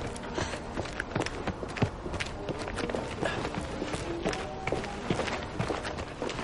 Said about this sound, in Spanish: Ella camina decidida sobre la nieve.